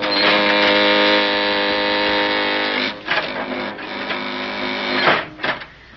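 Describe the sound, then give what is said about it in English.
An elevator car comes down its shaft with a loud, steady mechanical whirring hum that breaks off partway, then turns into a rougher, uneven rumble with brief dips and surges. “Hey, the elevator's coming down on us. We can't make it. We've got to make it. Run across, Jerry.”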